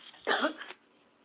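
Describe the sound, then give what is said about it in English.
A single short, muffled cough comes through a phone line. It is fairly faint, with a quiet hiss before and after it. “I'm sorry, I have to cough, and I pulled my phone away from my ears.”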